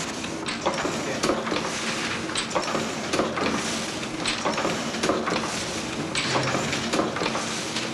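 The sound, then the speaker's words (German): Steady, rhythmic mechanical clatter of a printing press running off advertising slips for a department store, with repeated sharp knocks over a continuous whirring drone and no voices. “Der Lindner hat gestern Abend gesagt, ich könnte heute Morgen drucken. Wir haben eben angefangen.”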